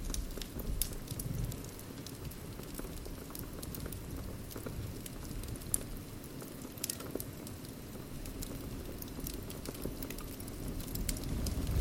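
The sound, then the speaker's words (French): A wood fire crackling in a chalet, a soft, constant crackle with scattered sharp pops and ticks over a low, steady rumble. “Enveloppé dans la chaleur ronde du chalet, on retrouve le vieil émerveillement du feu, l'odeur du bois qui brûle, et toutes ces histoires qui dansent autour des flammes.”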